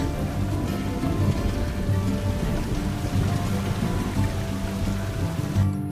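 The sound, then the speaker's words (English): Rain pours down steadily on a dirt path, a dense, continuous hiss of heavy drops with no breaks or pauses throughout. “Josh rides on a dirt path as rain pours around him.”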